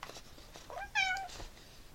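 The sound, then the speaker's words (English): A house cat meows once in the background, a short, faint, complaining meow that rises slightly in pitch, alone over quiet background noise. “You can hear my cat in the background complaining.”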